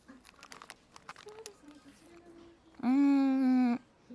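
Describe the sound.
Crinkling of a snack wrapper while someone eats snacks: many quick, light rustles and crackles in the first part, followed by a brief steady tonal sound, with no talking.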